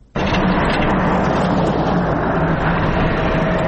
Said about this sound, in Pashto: دا د باغران ولسوالۍ ته پر غځېدلي کنډ او کپر سړک د روان هغه کومک لرونکي بایپور موټر ژغ دی